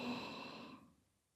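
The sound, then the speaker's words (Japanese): A deep, airy breath drawn in during a relaxation exercise, soft and even for most of a second before trailing off into quiet. “脱力がリンクするようなイメージで、深く吸って”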